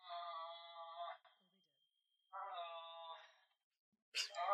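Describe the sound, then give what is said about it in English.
A person moaning: two drawn-out, fairly high-pitched wailing moans separated by a pause, followed by a short voiced sound at the end. “I hope they heard you groaning.”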